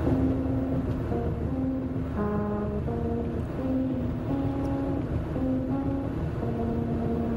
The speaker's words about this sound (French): on a créé une route et qui, au passage d'une voiture, joue une chanson pour désennuyer les automobilistes.